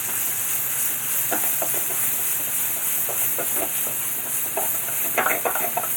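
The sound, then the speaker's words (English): Garlic sizzling in a hot pan over lowered heat, stirred with a spatula: a steady bright sizzling hiss, broken by a series of short scraping strokes that cluster more densely toward the end. “So I've turned it down. I'm throwing the garlic in. I'm going to use my spatula to stir it around.”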